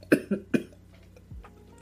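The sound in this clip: Coughing after something went down the wrong way: three sharp coughs in quick succession, followed by a quieter pause and a fainter final cough.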